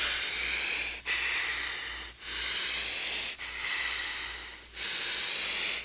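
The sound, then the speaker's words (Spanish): Deep breathing from a patient being examined by a doctor: loud, airy hissing breaths in long, even strokes, separated by a few brief pauses, with no talking. “Respira profundo, hijo.”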